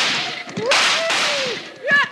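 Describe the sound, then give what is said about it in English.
Gunshot sound effects from a western radio drama scene where riders fire at pursuers, with a few harsh loud bursts mixed with whining ricochet-like tones, heard without talk. “I shot one of them's hat off.”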